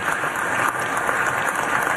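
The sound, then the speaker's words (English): Applause fills the Senate chamber after a swearing-in oath, a steady, dense wash of many hands clapping at an even level for the whole stretch. “And the Senate chamber burst into applause.”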